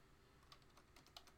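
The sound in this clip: Soft typing on a computer keyboard, a few faint clicky keystrokes in an irregular rhythm with no talking.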